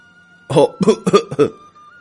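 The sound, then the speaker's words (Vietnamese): Dry coughing after choking on spicy chili-laced vegetables: four sharp, closely spaced coughs in a quick burst, over a faint steady tone. “Rau mang theo vị ớt, sặc dẫn tới hắn ho khan.”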